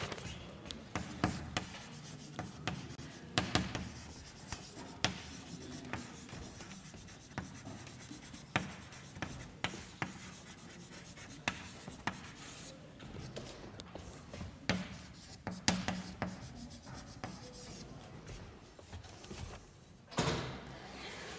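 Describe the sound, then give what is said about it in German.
Writing on a board during a maths lecture on exponential functions: many quiet, scratchy strokes and taps follow one another in uneven bursts, with no talking over them. “ich schreibe mal hin, das waren ja Exponentialfunktionen”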